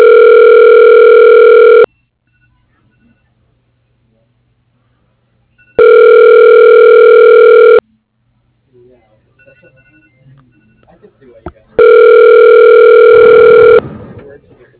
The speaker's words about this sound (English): For Dr. Jeff Sheffield, your call is being transferred.